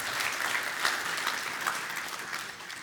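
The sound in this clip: Audience applause welcoming a speaker to the front, a steady, even patter of many clapping hands that holds for about three seconds and eases slightly at the end.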